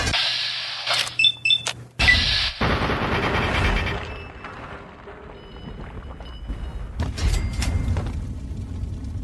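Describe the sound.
Gunfire in a video game, with a few loud, sharp shotgun blasts in quick succession near the start, then a lower rumbling, mechanical noise that trails on and swells again toward the end.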